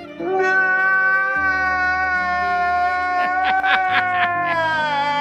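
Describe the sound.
A man crying loudly in a long, high, strained wail held at an even pitch, broken near the end by a few choppy sobbing bursts, with a low sustained tone underneath.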